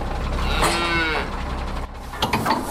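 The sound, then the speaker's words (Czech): Cattle lowing from a herd of hardy Scottish cattle on pasture at a former shooting range after the winter break; a drawn-out, harmonic moo rises out of a low, steady background rumble. “Proměnu jim pomáhá dokončovat stádo odolného plemene skotu. Na pastviny se teď vrátilo po zimní pauze. V bývalé střelnici se teď blíží nákladní vůz naložený skotským skotem.”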